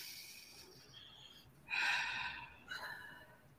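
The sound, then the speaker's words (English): A deep breath taken as part of a calming self-awareness exercise, heard as soft, airy rushes of breath. A longer, fuller one is followed by a shorter one, quiet and without talk. “So the first thing is breathe, take a breath.”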